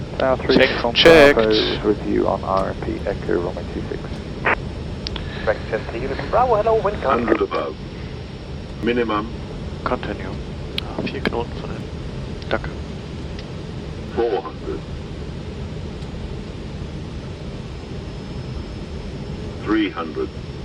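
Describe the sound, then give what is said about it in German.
A small aircraft glides on final approach toward the runway, its steady, low airflow drone running underneath pilots talking in the cockpit. “Wir gleiten ganz sachte in Richtung Landebahn.”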